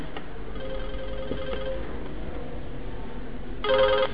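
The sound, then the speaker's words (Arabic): An electric bell rings during a grammar lesson: a short, loud burst of bright, buzzing tone near the end, following a steady low hum and a faint earlier tone. “دق الجرس”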